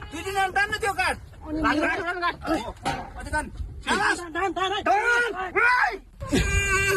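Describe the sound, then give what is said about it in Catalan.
A six-year-old girl cries under earthquake rubble after 60 hours trapped in northern Nepal, as a rescue team hears her. Many high, strained wails and sobs follow one another in uneven bursts with barely a pause. “És el moment en què un equip de rescat ha sentit el plor d'una nena de 6 anys que ha estat 60 hores sota la runa a Timur, al nord del Nepal.”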